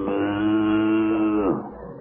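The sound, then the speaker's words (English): Cow mooing as it pulls a milk wagon: one long, steady, resonant moo that sags and fades at the end, heard on its own. “What is that, a cow pulling the milk wagon?”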